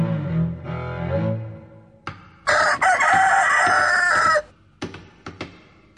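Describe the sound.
A chicken clucks and a rooster crows: low, throaty clucking opens, then a loud, bright, sustained crow, followed by a few short, sharp clucks.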